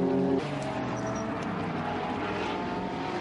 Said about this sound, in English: the Lotus is streaming ahead now as it catches the rear of the other 904, numbered 904.